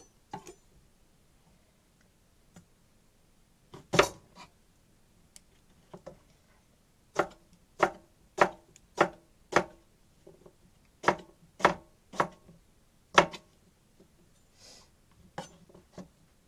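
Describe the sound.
A knife chops onions on a cutting board in many sharp, crisp taps. They come in irregular clusters with short pauses between them against an otherwise quiet background.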